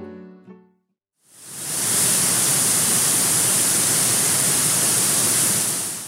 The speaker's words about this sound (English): That sound you hear is the giant waterfall.